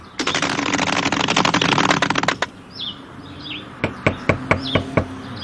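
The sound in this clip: Knocking on a door in a children's cartoon: a fast, rattling flurry of knocks, then after a short gap about six separate sharp raps, with a few faint chirps in between.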